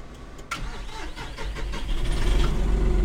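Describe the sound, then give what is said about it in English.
A John Deere 5075E tractor engine is started with the key: the starter cranks and the diesel catches, building into a steady, deep idling rumble that grows louder toward the end. “This is our newest tractor that we've gotten. He puts the key in the ignition and starts it up.”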